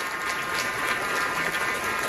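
Applause at a banquet for President Xi in San Francisco, a steady, dense patter of many hands clapping at moderate loudness that carries on without a break.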